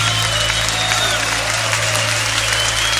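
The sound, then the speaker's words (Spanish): A church audience applauds during worship, a loud, dense and steady wash of clapping that runs without a break from start to finish. “Levanta tu aplauso a él fuerte.”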